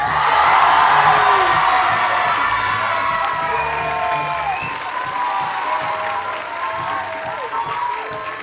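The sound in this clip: Enthusiastic cheering, whooping and applause from an audience greeting a musician, loudest at the start and then sustained, with shouted voices rising above steady clapping.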